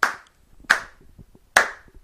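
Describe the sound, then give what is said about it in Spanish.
Three single hand claps, sharp and evenly spaced with short gaps between them, each fading quickly, given as mock applause during a Spanish chat about comic books. “Eso es un aplauso para vosotros”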